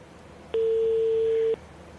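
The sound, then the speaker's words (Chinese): Ringback tone on a telephone call waiting to be answered: one steady, mid-pitched beep lasting about a second, sounding clearly over faint line noise with quiet on either side. “连线亚伯尼西医疗科技苏州有限公司姚先生的电话，看看能不能打通。好，我们场外努力一下好，正在等待接听当中。”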